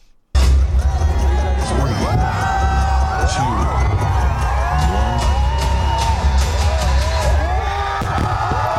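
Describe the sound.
A huge holiday crowd of some 400,000 people at a fireworks show roars steadily, with loud, continuous babble, shouts, whoops and whistles over a low rumble.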